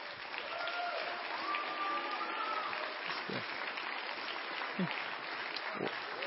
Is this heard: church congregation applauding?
yes